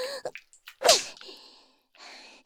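A single sharp slap across the face rings out as a bright, loud crack, with a few small soft clicks and rustles around it.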